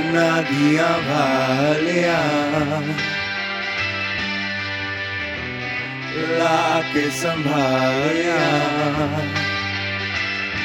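A raw, unfinished music demo made by two bandmates: droning, distorted tones layered with chorus-like effects hold steady throughout, with wavering melodic swells near the start and again past the midpoint, and no voices.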